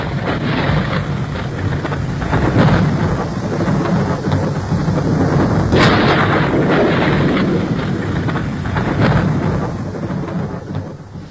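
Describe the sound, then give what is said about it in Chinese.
A thunderstorm with pouring rain: a loud, steady wash of downpour with deep rumbles of thunder rolling through it, swelling and easing without a break. “倾盆大雨冲刷了几分闷热，却冲刷不掉八零三的担忧”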